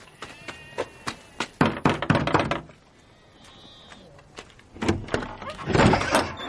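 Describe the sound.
Knocking on a house door in a village street, followed by the door being opened: several sharp raps in a quick irregular run, a short lull, then heavier thuds and rustling from the opening door.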